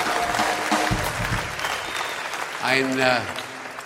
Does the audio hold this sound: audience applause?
yes